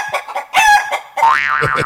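A person imitates a hen, giving quick clucks and a sharp squawk, then a long wavering crow-like call, all loud and with no other voices.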